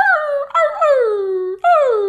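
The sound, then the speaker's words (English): A person vocally imitating a puppy living in the apartment above howling and whimpering: three loud, whiny howls that slide downward in pitch, the middle one longest, with no other sounds. “But now I have this damn puppy that lives above me. And so almost every day around 8 a.m., all you hear is,”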